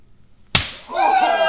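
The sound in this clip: A single loud, sharp slap as a hand chop strikes a man's bare chest, wrestling-style. The crack decays briefly and is followed by a voice whooping.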